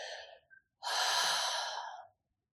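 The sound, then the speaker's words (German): A deep breath taken during a guided meditation: a brief intake, then a long, steady, audible sigh exhaled through the mouth. The breath is loud and airy and heard alone, ending in silence. “Dann nimm noch einen tiefen Atemzug, seufze den Atem, hauche ihn aus durch den Mund.”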